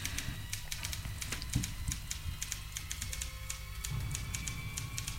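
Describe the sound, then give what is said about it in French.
Typewriter clattering without pause, a rapid, steady stream of sharp key strikes running through the whole stretch with no voices. “C'est comme si nous étions attirés contre notre volonté par le cliquetis de la machine à écrire, qui continuait sans relâche.”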